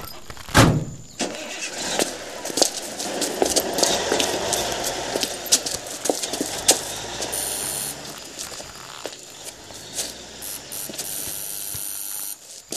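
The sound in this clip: A car starts up amid loud mechanical ratcheting and clicking, with a rough engine rumble and scattered clanks continuing steadily throughout.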